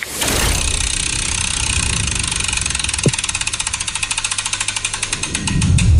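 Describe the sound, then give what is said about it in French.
A large prize wheel spun in a radio studio gives rapid, continuous ticking from its clapper over a loud, broad rushing noise that continues to the end. “Cette roue, on va devoir la faire tourner. J'attends ton go et puis on l'envoie.”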